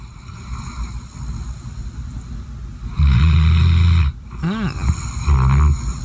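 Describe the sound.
A dog snoring: a couple of loud, deep rasping snores rise out of a steady low rumble, with a brief whistling breath between them.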